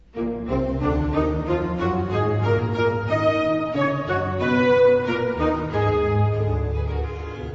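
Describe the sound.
The opening ritornello of a baroque work, played by a conducted ensemble on period instruments, with sustained string-led harmonies moving at an even pace at moderate volume throughout.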